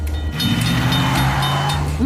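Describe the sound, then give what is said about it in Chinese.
A train rumbles past in a video game set around a jungle race track, a loud, steady low drone with engine-like tones held throughout, ending in a brief rising tone. “现在我们还得等火车通过吗？”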